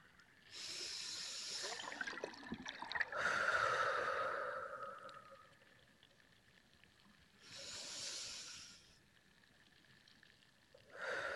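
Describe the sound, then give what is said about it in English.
Slow, deliberate breathing in through the nose and out through the mouth, a few long airy inhales and exhales alternating with quiet pauses, soft and unaccompanied by talk. “feeling the air as it goes in through your nose and exchanges to an exhale and out through the mouth.”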